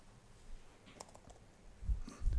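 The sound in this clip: Faint typing on a computer keyboard, a short cluster of quiet key clicks near the middle. A couple of duller, heavier thumps follow toward the end.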